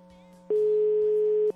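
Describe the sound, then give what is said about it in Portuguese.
A single telephone ringback tone from an outgoing call: one steady, mid-pitched electronic beep lasting about a second over a faint background hum. “tá chamando, hein?”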